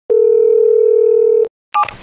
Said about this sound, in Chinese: 还是昨天那个号，直接给他打过去。